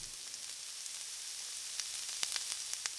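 Crispy-coated chicken deep-frying in oil gives a steady, even hiss, with a few sharper pops and crackles standing out in the second half. No voices are heard.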